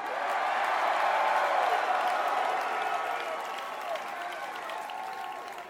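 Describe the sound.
Sustained crowd applause greets a band at a concert, a dense, loud wash of clapping that holds steady and then eases off slightly toward the end.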